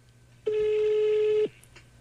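A single telephone ringback tone plays while a call is placed to a mobile number: one steady, mid-pitched electronic beep about a second long, alone over faint background noise.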